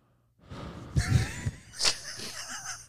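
Heavy breathing into a microphone after running: a few loud, rough, gasping breaths with a wheezy rasp, each rising and easing in turn, with no speech.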